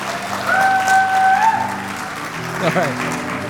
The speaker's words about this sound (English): We're cheering already.